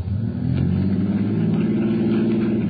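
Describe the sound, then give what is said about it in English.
A car's engine runs and revs steadily while the car sits stuck in mud, giving a loud, continuous, low mid-pitched drone with a rough, even texture that holds for the whole stretch. “No, don't start it quite so fast. Okay. Just start it real slow, see?”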